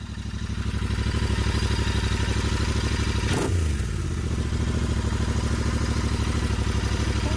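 A motorcycle engine drones steadily during a ride, a loud, even hum with a rough clattering edge, broken by one brief sweeping whoosh midway before the engine note settles back.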